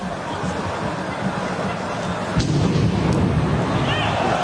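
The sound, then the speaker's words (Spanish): A bomb explodes outside the Stade de France in Saint-Denis during a France–Germany football match. One dull, muffled boom swells out of a steady roar of stadium crowd noise, which stays louder afterwards. “Esa era la primera bomba. Y minutos después sonaba la segunda de detonación.”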